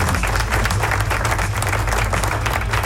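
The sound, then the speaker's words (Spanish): Loud, dense applause during a rock radio studio segment: a continuous wash of many clapping hands that holds steady with no pauses. “Aplauso.”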